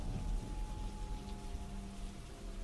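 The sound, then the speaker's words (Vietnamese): Heavy rain pours in a steady, dense hiss that stays level throughout, with no clear thunder and no voices. “Sấm sét ngoài trời cứ đinh tai nhức óc cùng với tiếng mưa mù mịt.”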